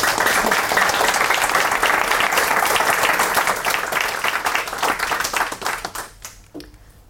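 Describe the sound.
Applause welcoming a keynote speaker at an Oxford centenary reunion weekend, dense, steady clapping from a crowd that thins and fades out near the end.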